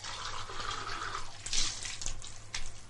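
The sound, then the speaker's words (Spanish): Water runs from a kitchen tap while a glass is rinsed under the stream, a soft steady splashing hiss with a few brighter splashes as the glass moves through the flow. “Lo enjuaga bajo el chorro de agua del grifo.”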